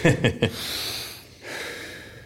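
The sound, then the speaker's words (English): A person takes a deep breath during a hard strength-training workout. Three quick snorting puffs come first, followed by two long, airy breaths that are softer and steady. “I'm now going to take a deep breath and not pass out.”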